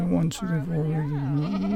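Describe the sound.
Young goats, some under a month old, bleating at an outdoor goat yoga session on a greenway, with a sustained, quavering bleat broken by a brief catch and then drawn out again.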